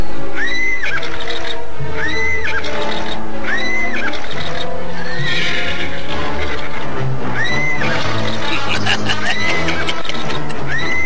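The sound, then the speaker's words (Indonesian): A wild horse neighs and rages with repeated loud, high whinnies that rise and fall, over a dense, continuous, layered background. “Prabu Sora melenting dan kemudian hinggap di atas punggung kuda yang ternyata telah siap menyambutnya dengan amukannya”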